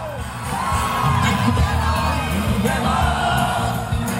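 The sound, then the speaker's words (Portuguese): Audience at a One Piece anime event cheers and sings along in chorus to the show's Japanese opening theme played through speakers, a loud, dense, continuous roar of many voices. “Quando as colunas disparam a música gravada, o público vai ao rubro e canta em coro.”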